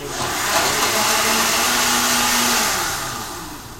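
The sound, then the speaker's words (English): A blender whirs through butter and oil in a loud, steady motor drone with a sustained tonal hum, then eases down slightly near the end. “So butter goes into the blender. Did you put the oil in there already? The oil's in there too, so everything's just kind of oiled. Floating. And flips the switch.”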